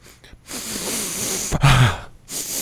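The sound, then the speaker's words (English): Big, deep, winded inhales: a few long, breathy rushes of air drawn in hard, loud and heard alone without speech. “The big, deep, winded inhales.”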